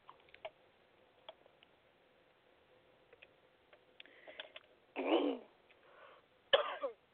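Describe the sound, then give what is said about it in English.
Coughing after choking during an interview: two harsh, fairly loud coughs near the end, each a short broad burst, with only faint ticks and small noises before them. “Excuse me, I got choked.”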